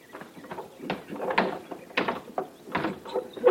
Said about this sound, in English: There's an easy way to prove it. Come on up here and open the coffin. All right, I will.